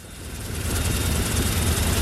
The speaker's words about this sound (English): Back in the relative calm of the Mediterranean, we are on board a military helicopter alongside a team of US Marines.